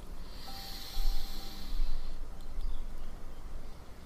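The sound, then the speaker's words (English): A slow, deep inhale during a guided heart-centre meditation: a soft, airy hiss swells, holds for about a second, then fades into quiet breath noise, with no talking over it. “Slow and steady exhale. Deep breath in.”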